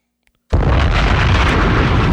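A bomb explosion sound effect bursts in after half a second of silence: one loud boom that swells into a dense, sustained low rumble lasting to the end.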